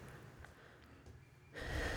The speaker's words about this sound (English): I like how you take a deep breath, like if you just rewatched it yourself, you're like, whoa